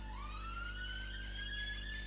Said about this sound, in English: I've got the Rozzers outside. Where I live, there's just like police cars and ambulances going past all the time.